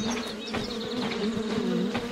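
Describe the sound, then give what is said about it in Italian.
Bees buzzing near a hive in a video game, a dense, steady, droning buzz of many insects with slight wavering, moderately quiet and continuous throughout, with no voices. “la difficoltà non è semplice perché alla fine il rumore delle api è più o meno lo stesso e non si capisce”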